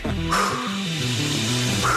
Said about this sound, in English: Dogs barking at him, but here we go.